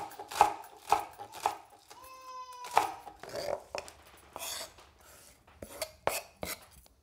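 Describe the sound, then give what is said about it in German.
A knife chops Thai shallots in quick, even taps at first, then in a looser, irregular run, while a cat gives a brief meow partway through. “Sie schneidet nun Thai-Schalotten, die sind kleiner und aromatischer als unsere.”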